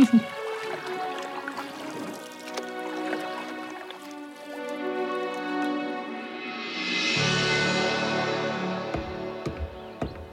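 Canoe paddling on water during a morning outing by two sisters: soft trickles and drips of water sit beneath steady, sustained music.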